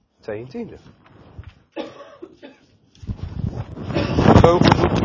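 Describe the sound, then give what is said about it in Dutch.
Microphone handling noise as a badly positioned microphone is adjusted during a Bible reading. After brief talk, a rough rumbling scrape with knocks builds and grows louder to the end. “Sorry, ik zal even herrie maken op de microfoon, maar hij zat niet goed.”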